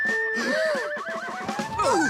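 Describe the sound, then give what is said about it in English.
A pony neighs in a long, wavering whinny. The pitch bends up and down through the call, which stays loud and continuous throughout. “What was that? Sounded like a little pony.”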